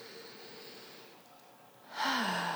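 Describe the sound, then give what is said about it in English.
A deep breath drawn in and let out, taken slowly as a group breathing exercise. A soft, airy inhale gives way to a louder, breathy sigh on the exhale, with a faint voiced tone at the end. “Just breathe, guys. If you're listening, do a three count in, three count out, or just take a good one right now with us, right?”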